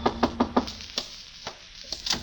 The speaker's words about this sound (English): Well, this was my chance to collar him, only just then a knock came.